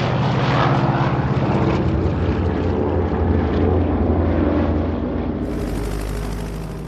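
Loud, continuous drone of the engines of a large group of propeller aircraft flying overhead, a dense steady roar that holds throughout without a break.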